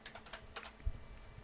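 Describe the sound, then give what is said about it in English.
Typing of a search on a computer keyboard: many quick, light keystrokes in an uneven run, faint and with no voices. “Let me type it in a search here.”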